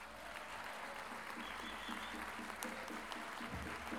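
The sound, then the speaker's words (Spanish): An audience applauds to welcome a folk singer and payador on stage. The clapping is a dense, continuous patter, fairly quiet and even from start to finish. “Recibamos con un gran aplauso a don Jorge Yáñez.”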